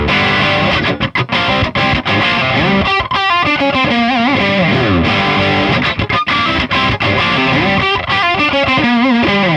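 Electric guitar played through a rock distortion pedal, with gain turned up, compression down, a little treble boost and a bass cut, gives thick, saturated riffs and ringing chords that run loudly and almost continuously, broken by a few brief gaps.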